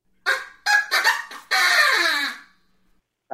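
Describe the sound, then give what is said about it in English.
A rooster call imitated by an early Duplex trap-drum sound effect instrument from around 1910, with four short honking squawks followed by one long, drawn-out call that falls in pitch, heard alone. “They made the chicken. Man. They made a rooster call.”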